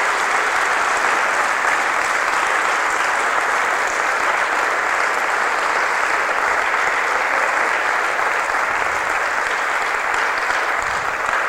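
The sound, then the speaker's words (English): Sustained applause from a church audience giving a hand to the Lord: dense, steady clapping that holds at an even level for about eleven seconds. “Let's hear, give a hand to the Lord here today.”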